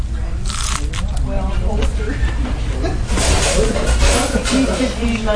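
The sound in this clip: Crunchy bites into breaded fried chicken, made like an old Chicken in the Rough recipe, give a few dry, crackling bursts mixed with chewing, over a murmur of voices.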